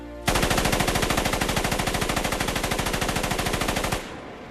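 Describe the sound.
A Tommy gun fires one long, continuous burst of rapid, evenly spaced loud shots for nearly four seconds before stopping abruptly.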